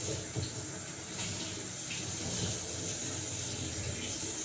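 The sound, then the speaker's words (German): Running tap water pours steadily while a coffee maker is rinsed out, a constant hissing splash that holds an even level with no pauses and no voices. “jetzt mal alles schön ausspülen.”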